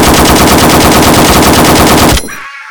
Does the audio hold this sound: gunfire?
yes